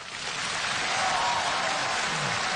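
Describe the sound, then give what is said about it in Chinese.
Applause greets a visiting official: dense, steady clapping that swells slightly and holds at an even, full level, with no voices. “来，我们以热烈的掌声欢迎领导光临指”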